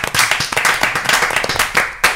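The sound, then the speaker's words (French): Loud, dense audience applause welcomes a team of guests to a studio recording, with rapid overlapping handclaps that keep up a lively, uneven patter from start to finish. “Applaudissements.”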